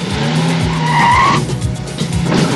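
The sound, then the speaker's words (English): A car engine revs hard as a pink convertible pulls out of a driveway, a loud rising whine with a squeal-like streak in the middle and no talking. “Stacy starts the engine and pulls out of the driveway.”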